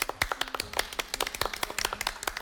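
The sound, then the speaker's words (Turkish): Scattered applause from a small group of contestants for archer Mete Gazoz, with distinct, separate claps in an uneven rhythm at moderate volume. “Aynı zamanda yarışmacılarımızla birlikte bir alkışlar mıyız Mete Gazoz'u?”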